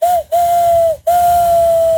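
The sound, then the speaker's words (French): A human voice imitates a train whistle in three clear, high, steady blasts: a short first toot, a longer second and a long final one, each separated by a brief gap and tailing off slightly in pitch. “C'est le train. Ah, ça fait bien le train aussi.”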